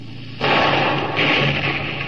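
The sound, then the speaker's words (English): A ship's deck gun fires a single shot across a boat's bow: one sudden loud boom followed by a long, steady rumbling decay. “Put another shot across the bow, Lieutenant. Aye, aye, sir. Four-gun, fire!”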